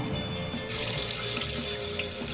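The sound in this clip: Water from a tap runs into a bathroom washbasin coated with nanoparticles, a soft flow that swells after a moment into a louder, steady rushing hiss with no voices.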